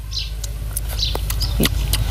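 Bird chirps: a few short, high, thin calls sound faintly and separately over a steady low rumble.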